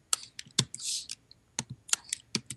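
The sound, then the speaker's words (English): Keystrokes on a computer keyboard while writing code, irregular light clicks and taps in quick, uneven bursts, quiet and alone. “So I just typed p dot, and I got information on all the elements in the JSON response that I got from the API.”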